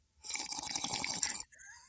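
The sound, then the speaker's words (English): Someone slurps coffee in one noisy, airy draw lasting about a second. A shorter, softer intake follows right after it. “the coffee slurp? Are you a slurper?”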